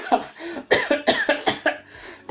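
Coughing from a person who has just choked: a rapid run of many harsh, loud coughs in quick succession, heard alone without talk.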